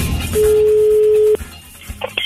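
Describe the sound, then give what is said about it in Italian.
A telephone line tone sounds while placing a call: one steady, mid-pitched beep lasting about a second, followed by a few faint clicks and line noise, with no voices. “Ma c'è che chiamo Paolo, va, che è un po' che non lo sento.”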